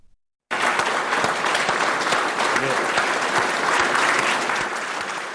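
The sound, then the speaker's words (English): Scientists applaud and cheer in a space agency command center in Bangalore as a spacecraft enters Mars orbit. Loud, dense clapping bursts in abruptly after a brief silence and carries on with voices mixed in, easing slightly at the end. “The scientists cheered and shook hands as the spacecraft entered into the orbit of Mars.”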